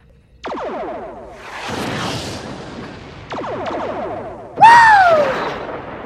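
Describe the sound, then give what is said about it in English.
Lasers and torpedoes fire in a space video game. Several sharp synthetic blasts trail off in buzzing, descending tails, with a hissing whoosh between them. A final, louder blast carries a falling electronic whine. “Fire a full volley of lasers, torpedoes, whatever you got.”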